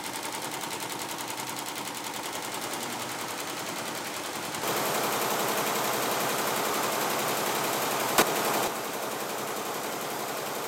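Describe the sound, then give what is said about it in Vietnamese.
Weaving looms in Thanh Hà village, Vietnam, clatter in a dense, rapid, machine-gun-like rattle that runs without pause and grows louder partway through. A single sharp knock stands out near the end. “Cả xã Thanh Hà lại rộn ràng tiếng máy dệt.”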